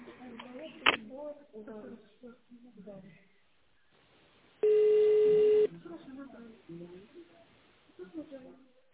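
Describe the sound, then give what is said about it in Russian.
A single steady touch-tone beep, held for about a second, sounds while an extension number is dialed into a phone menu, between stretches of quiet talk on the line. “Пожалуйста, наберите внутренний номер абонента в тональном режиме или дождитесь ответа оператора.”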